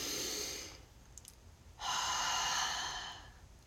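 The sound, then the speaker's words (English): A deep, conscious breath in through the nose and out through the mouth: two soft airy rushes, the second louder, fuller and longer, with no talking. “That's a conscious breath. I actually listened to my breath coming into my nose. I listened to it going out of my mouth.”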